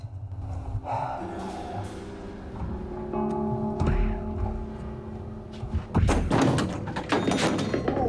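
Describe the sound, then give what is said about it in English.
A man stumbling heavily on his way to the kitchen after switching off a lamp, heard as a few dull thumps and bumps, the loudest cluster near the end, over a steady tonal background. “then stumbles heavily as he goes to the kitchen.”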